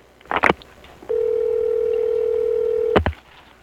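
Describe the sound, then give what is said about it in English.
Telephone line tones while calling someone back: a few clicks, then a steady, single-pitched tone holding for about two seconds before cutting off with another click. “I'm calling him back.”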